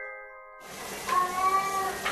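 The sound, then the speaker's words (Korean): A cat cries in a dark house, giving a drawn-out, wavering meow over a hiss of background noise. A steady tone sounds briefly just before it. “불 꺼진 집에서 울려 퍼지는 고양이의 울음소리”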